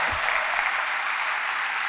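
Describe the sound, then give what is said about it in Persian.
Applause from audience members in the back rows, a dense, steady wash of many hands clapping at once, sustained evenly and fairly loud through the whole brief moment without pauses or separate claps standing out. “آخریا دست بزنن.”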